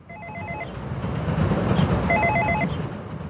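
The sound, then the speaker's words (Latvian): Intercom at a multi-storey apartment building in Riga's Pļavnieki district ringing after a flat number is dialed: two short bursts of warbling electronic ringing, separated by a pause, over a steady background hiss and rumble. “Stāvam pie kāda daudzstāvu nama Pļauniekos un domofonā esam uzspieduši dzīvokļa numuru. Gaidām atbildi.”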